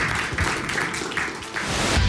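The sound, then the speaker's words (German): Applause for two guests: a dense, even wash of clapping that runs without a break from start to end, fairly quiet. “Vielleicht einen tobenden Applaus für den beiden.”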